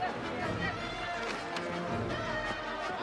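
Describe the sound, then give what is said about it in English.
Indy runs through a town in a video game, rapid running footfalls pattering steadily beneath continuous talk from a man. “So we've got Indy running through town, and”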